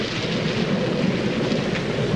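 Steady rain falling on a dark street, a dense, even hiss that holds at one level throughout with no breaks or distinct drops.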